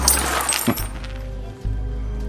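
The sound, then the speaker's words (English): Coins clink and rattle as they roll across a table, with a cluster of bright metallic chinks at the start and one sharper clack shortly after, then a low hum. “He chomps his cigar as Newt rolls him some coins.”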